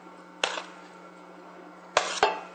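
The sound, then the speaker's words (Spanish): Chopped bulb onion and green onion drop into a frying pan with sharp clattering impacts. One hit comes early, then three more come close together near the end, over a quiet steady hum. “Colocamos la cebolla cabezona, cebolla larga,”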